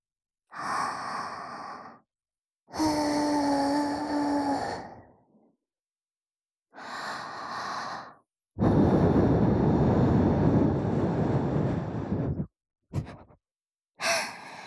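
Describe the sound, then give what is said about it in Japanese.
Breath is blown softly into a listener's ear during ear cleaning, in several separate airy puffs of varying length. The longest is a steady hiss of about four seconds, and a couple of the breaths carry a faint voiced tone. “よし、そろそろいいかな。ふうするぞ、ふう。”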